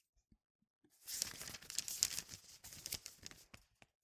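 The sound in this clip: Paper report cards rustle and crinkle as they are handled, a dry scraping burst of about two and a half seconds after a few faint taps at the start.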